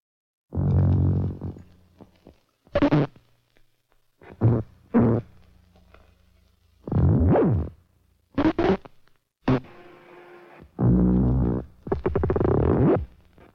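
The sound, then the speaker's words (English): Synthetic sounds drawn by hand onto film play on a Moviola viewer as a series of short, buzzy, tonal bursts of varied length and timbre, separated by stretches of silence. “Norman McLaren, the motion picture artist, has been making some hand-drawn sounds. And now he's going to hear them for the first time, played on the Moviola, a sort of miniature movie projector.”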